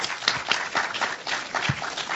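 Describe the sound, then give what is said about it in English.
An audience applauds a professor after his contribution to a debate on food labelling. The clapping is dense and uneven, with repeated bursts and no talk over it. “Big round of applause for him.”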